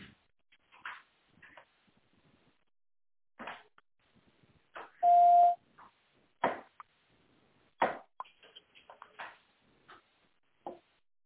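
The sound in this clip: Automated telephone system beep, prompting a caller to say an employee's name: a single steady, mid-pitched tone about half a second long, set among faint, sparse clicks and quiet gaps.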